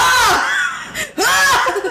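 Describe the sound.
A man imitates a scream with his own voice: two loud, drawn-out vocal cries that swoop up and down in pitch, separated by a brief pause.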